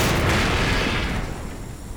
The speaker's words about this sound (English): So you hit the plunger down and there's this huge explosion.